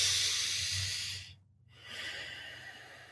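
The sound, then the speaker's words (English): A slow, expansive breath during a breathing practice: a steady airy rush, a clear pause of near silence, then another long, breathy stream. A low, steady hum runs underneath. “So it's okay to go slow in the beginning to get your body used to it. Take that nice, slow, expansive breath.”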